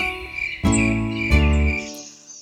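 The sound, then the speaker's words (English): Crickets chirping in a steady, high-pitched trill that runs throughout, with lower sustained tones sounding beneath it. “Over in the meadow on the rock by the shore lives an old mother cricket and her little crickets four. Chirp, says the mother”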